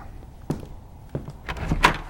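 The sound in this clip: A door being opened, marked by two separate dull thunks and then a louder rattling burst of latch and frame noise, with no talk.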